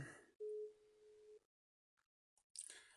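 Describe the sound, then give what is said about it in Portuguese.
A telephone ringback tone sounds during an outgoing call: one steady, mid-pitched beep lasting about a second, then silence broken by a few faint clicks and a brief burst of noise. “Se ele atender também, deixa eu ver. Tá chamando.”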